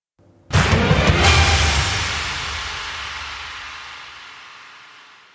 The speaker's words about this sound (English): Now! I pulled the trigger. The shell blasted off.